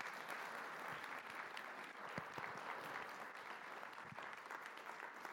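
Applause from a church audience welcoming a pastor to the stage, steady and fairly soft, with a few sharper claps standing out from the dense, even clapping.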